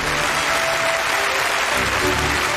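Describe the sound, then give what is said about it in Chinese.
Applause from an audience welcoming a guest on stage at an honour-presentation ceremony: dense, steady clapping that stays loud and even for the whole stretch. “我们用掌声有请全国教书育人楷模、全国先进工作者张万波老师为程凯文颁授荣誉，有请。”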